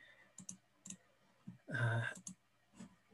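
Computer mouse clicking while someone starts an online multiplayer game: a few short, sharp clicks at irregular spacing, with a louder, longer burst of sound in the middle.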